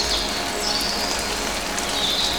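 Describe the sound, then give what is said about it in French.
Raindrops fall among vegetation in a steady, dense patter and hiss that holds evenly throughout, with a few faint high chirps over it. “les gouttelettes de pluie, des prises de son monophoniques et stéréophoniques.”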